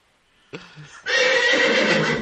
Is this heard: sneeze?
no